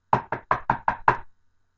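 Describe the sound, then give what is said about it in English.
Six sharp knocks on a door fall in a quick, even rhythm, each a short, clear rap, followed by silence. “I'm going to knock on the door.”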